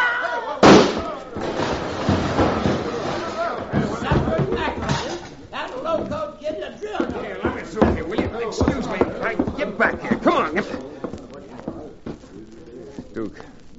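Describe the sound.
A single sharp gunshot cracks out during a saloon shootout over a card game, standing out above the surrounding sounds, then excited voices talk over a busy background.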